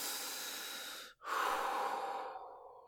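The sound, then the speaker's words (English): One deep breath: a long, airy inhale, a brief pause, then a long, softer exhale that fades out, fairly quiet with no talking. “Deep breaths. Deep breaths. Do it with me. In and out. In and out.”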